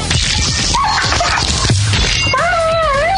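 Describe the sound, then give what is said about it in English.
Dog whimpering and yipping, with short yelps over a noisy background, then high, wavering whines that rise and fall at the end. “I have, like, audio of how he died. Oh! Actually, I'll just play that for the people. This is how Roxy's dog died, everybody.”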